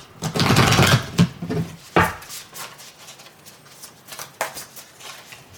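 Tarot cards being shuffled: a loud, rustling riffle followed by a few sharp snaps and softer, intermittent card handling.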